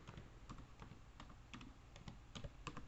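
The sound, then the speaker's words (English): Faint typing on a computer keyboard with one hand: many uneven, soft key clicks in an irregular rhythm, with no talk. “Takes a little longer to type with one hand.”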